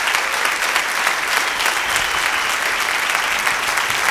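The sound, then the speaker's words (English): Dense, sustained applause from a church audience honoring a pastor at a Pastor's Appreciation Day service, steady and fairly loud throughout with no breaks. “Let's give Pastor Jason a big hand.”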